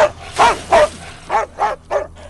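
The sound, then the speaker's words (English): A large dog barks at a screen door: five loud, evenly spaced barks, each a short, harsh, mid-pitched burst separated by brief pauses. “A large dog jumps at the door.”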